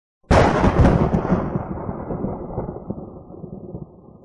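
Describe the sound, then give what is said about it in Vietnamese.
A thunder sound effect for a giant green flying sword wrapped in golden light crashes in with a sudden loud onset. It then rolls into a long, deep rumble that slowly fades, with no voices. “Nó phát ra một tiếng sấm đáng sợ.”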